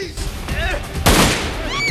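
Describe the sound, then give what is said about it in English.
Gunfire exchanged between two men in a film scene: a loud, sharp burst of shots cuts through the middle, set among tense voices and crying. “Zep and Tap exchange fire.”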